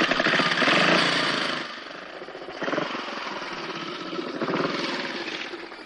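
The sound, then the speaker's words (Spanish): A motorcycle engine being started in desperation, a loud rough rattling roar that surges and eases a few times as it is revved, with no voices. “El joven arranca la moto con desesperación.”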